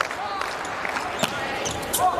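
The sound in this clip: A volleyball serve is struck for an ace at set point in a Slovenia–Poland match: one sharp impact stands out over steady crowd noise.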